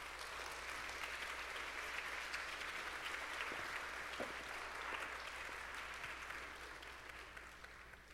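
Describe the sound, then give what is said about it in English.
Audience applause greets a panel coming up on stage at a Christian gathering: steady, dense clapping that holds at an even level before tapering slightly toward the end. “Can the panel come on up? And can you give them a hand as they come on up?”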